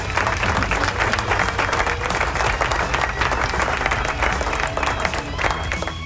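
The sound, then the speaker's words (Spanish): A crowd applauds with dense, continuous clapping that holds a steady loud level for about six seconds, mixed with general crowd noise. “¡Aplauso!”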